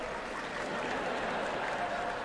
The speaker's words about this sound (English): If you applaud, that only encourages me.